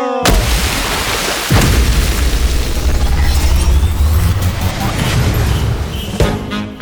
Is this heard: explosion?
yes